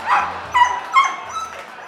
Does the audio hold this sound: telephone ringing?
no